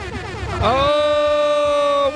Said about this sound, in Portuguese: Uma buzinada pra vocês.